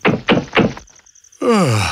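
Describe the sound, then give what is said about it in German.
Three hollow, evenly spaced knocks strike a hut door at night. After a short quiet pause, a voice begins speaking. “In dieser Nacht, als er in seiner Hütte schlief, hörte er ein Klopfen.”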